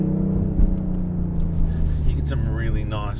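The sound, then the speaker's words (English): Engine drone of a four-cylinder Mustang with an electric boost motor while accelerating, a steady low hum with people talking over it. “So you can hear the electric motor kick in as well. It helps it.”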